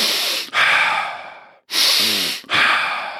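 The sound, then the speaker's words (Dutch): Deep breathing in and out, a series of about four loud, long breaths with short pauses between them, airy and rushing, with no talk. “even tien of twintig keer heel diep in en uit te ademen”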